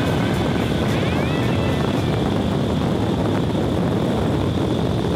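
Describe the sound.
Loud, continuous roar of an indoor skydiving wind tunnel, a dense rush of air with a steady high whine riding on top and no breaks.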